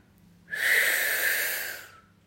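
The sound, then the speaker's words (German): A single long, deep breath in during a guided meditation: an airy, breathy rush that swells quickly, holds steady for over a second, then tapers off into quiet. “Atme. Atme tief ein”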